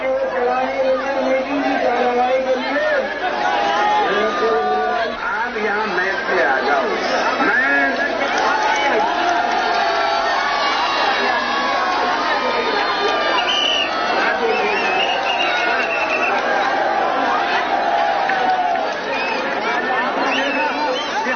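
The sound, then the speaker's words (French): Crowds at a rally in India greeting Phoolan Devi as she leaves a train, a dense, loud, continuous mass of voices shouting and cheering with no break. “vous avez filmé l'accueil triomphal des foules qui scandent son nom, Poulan Devi, quand elle sort du train.”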